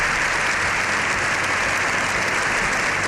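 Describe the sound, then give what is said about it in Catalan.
A long ovation for Pope Leo XIV at the Spanish Congress of Deputies after his speech, heard as dense, sustained applause from many hands, loud and unbroken from start to finish. “Lleó XIV ha rebut una ovació de 7 minuts al final de la seva intervenció”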